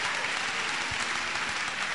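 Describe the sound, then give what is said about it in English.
Applause from a church audience during a service, a continuous crackle of many hands clapping at a moderate, even level throughout, without spoken words on top. “Come on, clap for the young man.”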